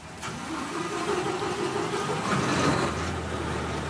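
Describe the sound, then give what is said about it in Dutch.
Engine of a police patrol boat on a coastal patrol near Algeciras: a steady, loud mid-pitched drone with a rough hiss, swelling slightly, then settling into a low hum near the end. “En die politie die patrouilleert daar dan ook elke dag langs de kust met auto's en boten. En met zo'n patrouille in El Gaciras mocht ik meevaren.”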